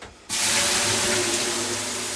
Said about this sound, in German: soll ich dir jetzt mal ein bisschen Wasserdampf aufgießen hier, damit das ein bisschen kuscheliger wird?